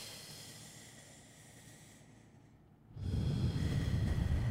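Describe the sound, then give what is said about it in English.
A deep breath drawn in during a guided breathing exercise: faint hiss at first, then a steady, louder rushing inhale over the final second and a half, with no talk. “Breathe in.”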